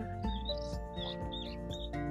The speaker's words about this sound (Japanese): なんか周りには今、ツバメがいっぱい飛んできてて、なんかすごく気持ちがいい感じですね。